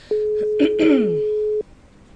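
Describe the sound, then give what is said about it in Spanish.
Ringing tone of an outgoing telephone call: one long, steady single-pitch tone, with a brief voice sound and a throat noise overlapping its middle before it cuts off. “no sé si se escucha el... Ahí está llamando.”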